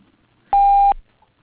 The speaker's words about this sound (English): If you would like to leave a message, you may do so at the tone.